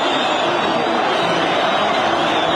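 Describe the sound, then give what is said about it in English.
Massive crowds in Tahrir Square roar in triumph as Mubarak steps down in February 2011, forming a dense, unbroken wall of crowd noise that holds at a steady, loud level. “massive crowds in Tahrir Square roaring with triumph when Mubarak stepped down”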